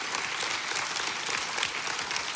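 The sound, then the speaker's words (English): Audience applause at a sermon: dense, steady clapping from many hands, loud and even throughout, with no talk over it. “Yeah, you can clap to that.”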